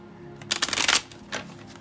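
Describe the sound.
Tarot cards are shuffled during a reading: a crisp, rapid riffling burst lasting about half a second, then a shorter, softer flutter, with no voices.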